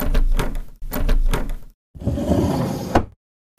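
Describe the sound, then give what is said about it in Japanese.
A sake shop's sliding door is pushed open, two rattling, grinding bursts followed after a short pause by a longer slide that ends in a thud. “暗いな暗いな、まずは暗いから、店の戸を開けてから掃除と。”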